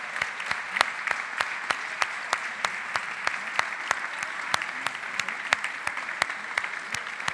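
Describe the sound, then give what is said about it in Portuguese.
Audience applause in a church for members who produced a theatre play. Many hands clap in a dense, even stream that keeps a steady loudness throughout, with a few sharper single claps standing out. “Você pode aplaudir esses irmãos que produziram o teatro?”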